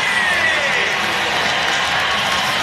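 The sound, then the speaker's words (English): A stadium crowd cheers for a Nashville SC defender introduced on the Jumbotron at a hockey game, making a steady, dense roar of many voices that holds at an even loudness throughout. “He stands up to acknowledge the cheers.”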